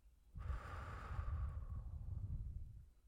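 Slow, soft human breathing: one long, airy breath that swells, holds steady, then fades, with no voice.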